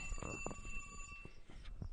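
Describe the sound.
A phone ringing with an incoming call, a faint, steady electronic ring tone beneath low background noise and a few soft knocks.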